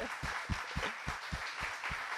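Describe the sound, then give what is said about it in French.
A church audience applauds: a dense, steady wash of clapping with many sharp, overlapping hand claps, fairly loud and continuous through the short clip, with no talk over it. “Alors j'aimerais juste qu'on puisse applaudir ceux qui ont pris cette décision ce matin. Bravo.”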